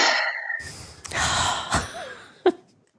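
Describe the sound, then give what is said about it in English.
A deep breath is exhaled during a guided mindfulness meditation: a soft, airy rush that swells a couple of times and ends in a short puff, then fades to quiet. “Deep breath in. And let it go.”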